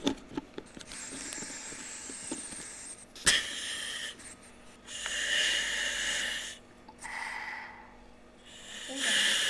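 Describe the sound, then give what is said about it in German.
Breathing through a firefighter's compressed-air respirator mask, a few long, loud, hissing breaths with short pauses between them, preceded by faint handling noises. “So, jetzt hört ihr meine Atemzüge. So, jetzt löse ich die Bebänderung wieder und setze die Atemschutzmaske ab.”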